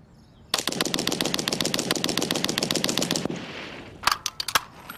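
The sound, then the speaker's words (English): A Vickers machine gun fired in a bullet-spread test at about 175 yards: one sustained, evenly rapid burst of nearly three seconds, then a few sharp separate cracks. “What we're trying to determine here is the actual spread of the bullets that would be fired from Brown's Vickers gun. We'll be measuring the spread, and we'll be firing it probably about 175 yards.”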